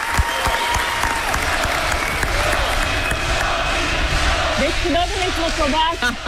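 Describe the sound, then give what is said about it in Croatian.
An audience applauds a sung performance in a loud, continuous burst of clapping, with chanting voices breaking through over the last second or so. “Dobili smo i dobili ste ovaj, imamo tri pljeska. Jedan pljesak je onako, ajde, dobro je, a vi ste dobili skandiranje”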